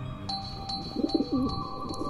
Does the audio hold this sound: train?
no